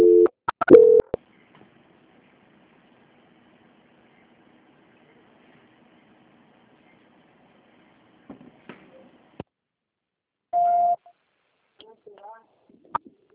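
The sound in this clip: Telephone line tones during a call transfer: short, steady electronic beeps and a few sharp clicks are separated by long stretches of near silence.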